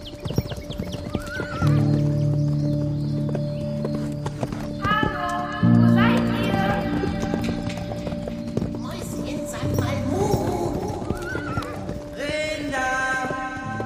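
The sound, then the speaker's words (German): Horses gallop and neigh as they are ridden away, with continuous clip-clop of hooves and several loud whinnies breaking through. “Ich reite kurz zu meinem Dad und gebe ihm Bescheid. Dann reiten wir los.”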